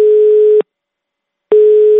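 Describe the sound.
A telephone busy signal after dialing. A steady mid-pitched tone sounds for about half a second, stops for nearly a second, then comes back and holds until the end.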